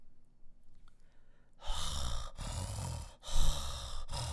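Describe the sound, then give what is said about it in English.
A person imitates mouth breathing: after a quiet start, a few loud, raspy breaths push in and out through an open mouth, each rough and airy, with brief pauses between them. “But there's people who breathe like this.”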